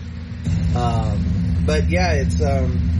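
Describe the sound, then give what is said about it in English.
Lawn mower engine running as grass is mowed across the street, a steady droning rumble that kicks in abruptly after a short quiet start and holds at an even level. “And of course, they start mowing the grass right across the street.”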